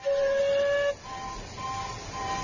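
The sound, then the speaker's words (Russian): A train pulling away from a station platform sounds a single steady whistle of about a second, then gives way to a low, continuous rumble with faint thin tones as it moves off. “И вот поезд трогается.”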